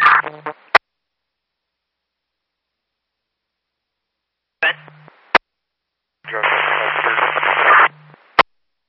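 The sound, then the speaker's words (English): Radio static comes in short bursts of hissing noise, with the longest and loudest burst near the end. A few sharp squelch clicks mark where transmissions cut in and out, with long stretches of silence between them. “Radio was static.”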